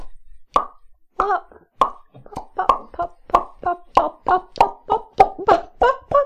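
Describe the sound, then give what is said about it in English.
A voice imitates the popping, snapping and crackling of winking back into existence: a quick run of many short, punchy mouth pops, fairly evenly spaced, growing slightly louder toward the end. “Pop, pop, pop, pop, pop, snap, crack, pop”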